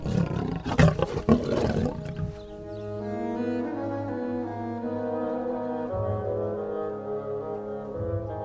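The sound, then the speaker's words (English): Lions roaring: a few rough, rumbling bursts, then long, loud, steady roars with deep harmonic tones that continue to the end, with no talk. “There was no mistaking what it was. Even though they had never heard the sound before, they knew it was the roaring of lions.”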